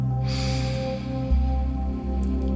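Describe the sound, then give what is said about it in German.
A soft, airy breath drawn in through the nose during a guided breathing exercise, a gentle hiss over a steady low tonal drone. “Nase einatmen”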